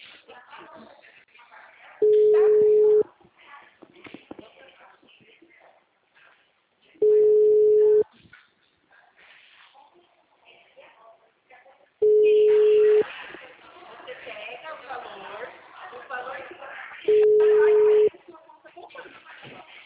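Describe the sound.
Ringback tone of an outgoing telephone call: four steady, even tones, each about a second long and spaced roughly five seconds apart, with faint voices murmuring between the tones.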